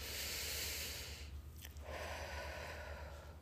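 Slow, deep breathing: two long, airy breath sounds with a short pause between them, soft and steady against a quiet background, with no voices.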